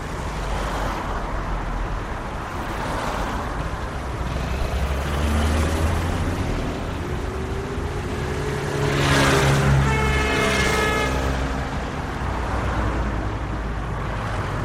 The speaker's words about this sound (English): I think I should record before we start, like a minute of traffic. Traffic, yeah.